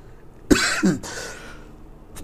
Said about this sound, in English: Excuse me. Come on, man. If you keep coughing like that, I'm going to have to put my mask on.